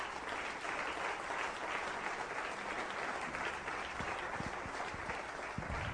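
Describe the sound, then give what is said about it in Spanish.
A church audience applauds with steady, fairly quiet massed clapping that holds an even level throughout, with a few heavier claps or thumps near the end. “Dale un aplauso a Cristo del cielo.”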